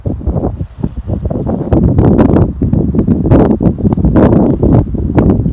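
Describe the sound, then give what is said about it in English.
Wind blowing outdoors in a forest, a loud, continuous rushing and buffeting with gusty surges that hold steady through the whole stretch. “Stillness so you can hear the wind.”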